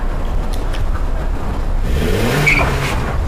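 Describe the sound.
A car engine revving hard: a loud, continuous rough drone that swells, with a rising whine near the end.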